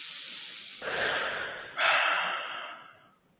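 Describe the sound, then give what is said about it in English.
A big, deep breath taken during a guided relaxation exercise: a long, breathy rush of air in two phases, the second slightly louder. It is heard alone, with no talk. “And take a big, deep breath.”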